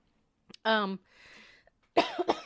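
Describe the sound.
A single harsh cough from a tickle in the throat, starting as a strained voiced hack and trailing into a breathy rasp. A voice then speaks briefly.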